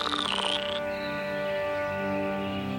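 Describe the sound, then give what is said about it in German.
Frogs croaking in a dense, continuous chorus, a buzzy, layered drone with a higher call that glides downward in the first half second. “So waren es rechte Frösche und sprangen an Land.”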